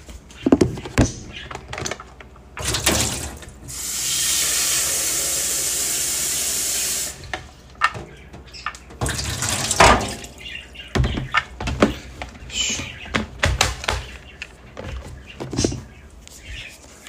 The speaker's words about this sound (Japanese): まずはお湯をよいしょケトルで作っていきます